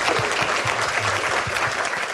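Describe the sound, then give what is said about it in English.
Applause for a speaker at a conference session: a thick, steady wash of many hands clapping that stays at one level throughout, with no voices over it. “So what we're going to do now, again, a big round of applause for Kyle Tully.”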